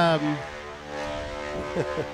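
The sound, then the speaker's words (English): Propeller airplane noise at an airfield in Oshkosh: a steady, harmonic engine drone, louder at the start, with a few brief surging pulses near the end. “Airplane noises. This is Oshkosh.”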